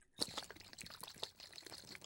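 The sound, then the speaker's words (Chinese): Urine poured into a sparkling water bottle: a faint, continuous trickling pour with small irregular splashes and drips. “倒进气泡水的瓶子里，给你摇匀，”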